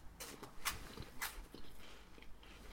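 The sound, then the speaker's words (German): Eating a waffle quietly: several soft, dry crunching bites with faint mouth sounds, low in level and without any talk. “Sprich mal weiter, ich esse eine Waffel. Ich finde die Idee gerade gut, eine Waffel zu essen. Das habe ich. Ja, das hört man auch später nicht. Ja, ich esse wieder ganz leise.”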